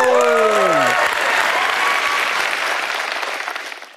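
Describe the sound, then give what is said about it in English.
Audience applause and cheering after a speaker's introduction, a dense, loud wash of clapping with a brief vocal shout at the start, holding steady before fading toward the end. “So without further ado, please make some noise for the one and only Chasity Valentino.”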